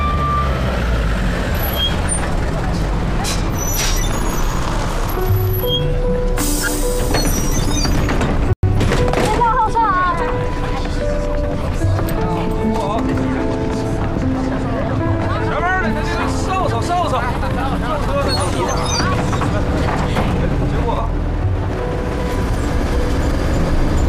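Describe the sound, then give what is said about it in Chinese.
A bus pulls away from its stop with a continuous low engine rumble that stays steady throughout. People talk loudly over it. “赶紧发车吧。 好好，发车。”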